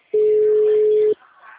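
A telephone line tone sounds before a call is placed: a single steady, mid-pitched tone lasting about one second, then cut off, leaving only faint background noise.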